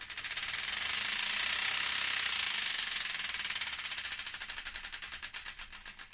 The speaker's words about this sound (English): So I think we should spin that wheel,